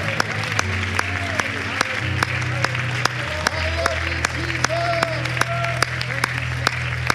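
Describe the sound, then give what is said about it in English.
A standing audience claps its hands in a steady, rhythmic beat at a worship service. Sharp, regular claps ring out over voices and sustained tones. “could you give the Lord a standing ovation? Just clap your hands and shout unto him.”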